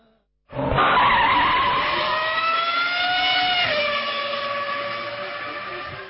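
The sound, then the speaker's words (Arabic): Tires screech in a mobile car-racing video game: a loud, sustained high squeal that starts abruptly, holds for several seconds, steps down slightly in pitch, then slowly fades, with no voices. “لو غاوي سباق ولو بتحب التحدي، يلا حمل لعبة نيد فور سبيد على تليفونك المحمول.”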